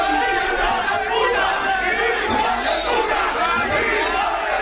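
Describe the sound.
Farmers shout while storming a regional government building in Salamanca, a scuffle with sticks and fences: a loud, agitated crowd yelling and clamouring without a pause.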